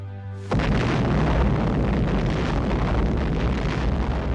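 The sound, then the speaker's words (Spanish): Detonation of the first atomic bomb: a sudden massive blast opens into a loud, continuous, deep roaring rumble that carries on steadily to the end without voices. “El 16 de julio, mientras Truman recorría el Berlín bombardeado y preparaba la reunión del día siguiente con Stalin, los científicos detonaban la primera bomba atómica.”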